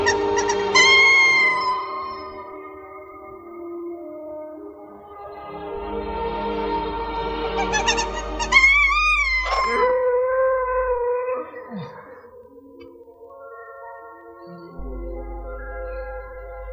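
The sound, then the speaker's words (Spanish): A lemur howls in pain as its land burns, giving a few long, high, wavering wails with a sharp upward sweep midway, then lower drawn-out tones over a low rumble. “Desde allí, viendo cómo arde su tierra, aúlla en un gesto de dolor.”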